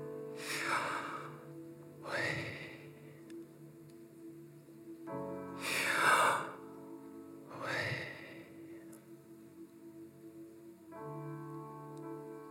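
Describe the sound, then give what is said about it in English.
A voice imitating breathing: four breathy bursts of rushing air, each about a second long, with pauses between them. They sit over a steady, low tonal background. “If you try to spell the sound of breathing, it might sound a little bit something like,”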